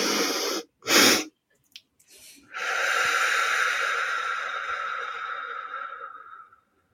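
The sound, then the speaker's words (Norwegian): Two quick inhales followed by a long, steady exhale, done as a calming breathing exercise. The sharp double intake comes first, then after a brief pause a smooth outbreath that lasts about four seconds before fading out. “Da tar du først et pust sånn, og så legger du på et lite ekstra, og så langt ut pust”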